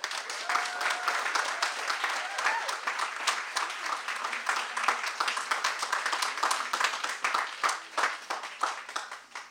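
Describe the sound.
An audience at an evening event applauds to welcome a poet and body-positivity activist on stage: sustained, dense clapping from many people, steady and fairly even for about nine seconds before easing slightly at the end.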